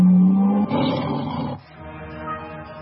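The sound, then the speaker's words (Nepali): A tiger roar in a radio station jingle: a steady low tone, then one loud, rumbling roar lasting about a second, which drops away into a quieter tail. “तपाईँ अहिले सुन्दै हुनुहुन्छ radio tiger 99.2 megahertz, गर्जन छ सधैँ”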